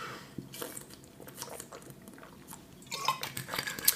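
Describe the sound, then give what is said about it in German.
Sipping and swallowing as a person takes a drink to ease a scratchy throat: soft, wet mouth and gulping noises in a few small bursts, growing slightly louder toward the end, with no talk. “Mein Hals kratzt übrigens wie scheiße. Ich muss immer was trinken, ihr Lieben.”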